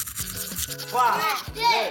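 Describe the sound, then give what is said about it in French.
A toothbrush scrubs teeth with quick, uneven rubbing strokes. A child's wavering voiced sounds rise and fall over the brushing. “attrape ta brosse à dents, ton dentifrice, et tu frottes jusqu'à ce que l'histoire soit terminée”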